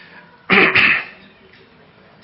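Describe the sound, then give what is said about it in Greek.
Two harsh coughs in quick succession from a speaker with a cold, loud against a quiet background, followed by near silence. “Και εγώ φταίω τώρα που έχω βήχαν και δεν μπορώ να σας μιλήσω”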